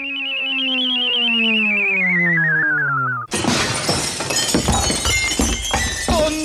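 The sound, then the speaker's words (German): A window pane shatters in a loud crash with scattering glass debris that lasts about three seconds. Before it, a long, loud tone slowly falls in pitch. “Oh nein, nicht schon wieder. Eine kaputte Scheibe.”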